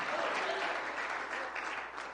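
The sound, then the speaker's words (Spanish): An audience at a church service applauds in praise of the Lord, a faint, even wash of clapping that holds steady with a murmur of voices underneath. “Dale ese aplauso de alabanza al Señor.”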